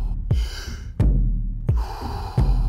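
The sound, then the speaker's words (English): Deep breathing in and out during a relaxation breathing exercise: four strong, breathy breaths in a slow, steady rhythm. Each begins with a sharp onset and trails off into airy noise, with no speech. “Back into that rhythm. Breathe in. Breathe out. Breathe in. Breathe out.”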